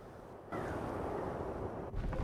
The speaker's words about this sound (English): Wind begins to stir through the wild-eyed woman's long grey hair.